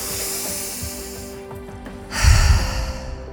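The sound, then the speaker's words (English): A deep cleansing breath taken during a grounding meditation: soft, airy breathing gives way to a long, loud, noisy exhale that swells near the end. “We're going to take one deep breath, cleaning breath.”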